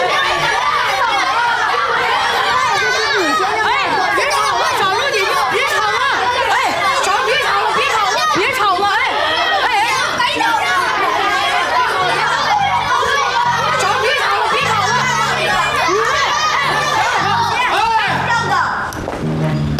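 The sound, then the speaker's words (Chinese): Noisy children chatter and play, a dense, unbroken din of many young voices overlapping and shouting for the full twenty seconds, with occasional bursts of laughter mixed in. “你们这帮小孩啊，这么闹腾呢，吵啥呢？”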